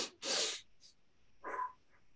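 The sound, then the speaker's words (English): Deep breath in through the nose and a full exhale through the mouth, demonstrating a relaxing breathing pattern: a quiet, sharp airy inhale, a brief pause, then a shorter, softer, lower breathy exhale. “you're going to completely fill your lungs when you do that. And then a complete exhale with your mouth, so much so that you can feel your lungs kind of squeeze all the air out, right? So it's going to sound like this.”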